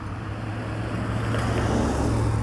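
Low, steady rumble of a truck on the road near a bus stop, a broad engine drone with a deep hum underneath that grows slightly louder and stays unbroken throughout.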